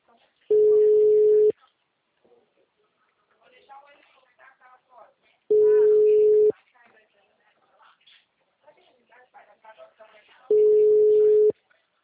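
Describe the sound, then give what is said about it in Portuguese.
Telephone ringback tone while calling someone: three steady, evenly pitched tones about a second long, spaced roughly five seconds apart, with faint talk between them. “Eu tô ligando pro Valdeni, liga pro outro.”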